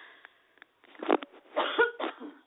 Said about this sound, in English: And I got a cough.